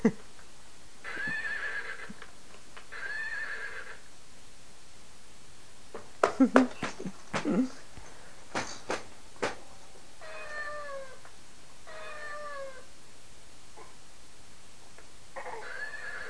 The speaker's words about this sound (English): You hear the horsey? You hear the horsey?